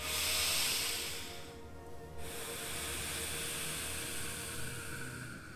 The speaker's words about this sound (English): You take a really long extended breath for that.